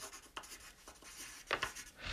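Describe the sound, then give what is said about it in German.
A pen scratches faintly across paper as a note is written out under dictation, with soft, irregular strokes and a couple of slightly sharper scrapes partway through. “Schreiben Sie, was ich Ihnen diktiere.”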